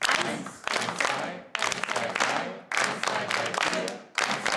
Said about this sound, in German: Die Gruppe soll in dieser Rhythmusübung gemeinsam im Takt klatschen. Dafür müssen sie die Abfolge erstmal herausfinden.